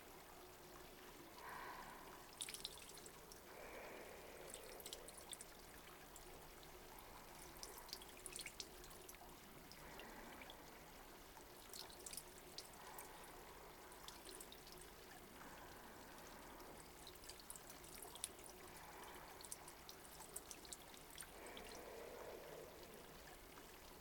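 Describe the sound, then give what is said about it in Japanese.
Water poured slowly over a person's head during a hair rinse, a faint, soft trickling stream with scattered small drips that comes and goes through the stretch. “もう一回ゆっくりかけますね。”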